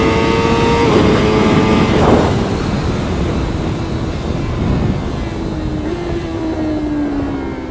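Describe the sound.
Honda CBR motorcycle engine revving hard on a race track, held high in the revs: a loud, continuous droning engine note whose pitch shifts with the throttle, beneath heavy rushing wind noise.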